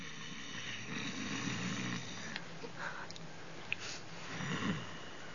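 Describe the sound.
Snoring from a sleeping dwarf at a night camp in a forest: rough, raspy breaths with snorting rattles, rising and falling in a slow, uneven rhythm, fairly soft and without talk.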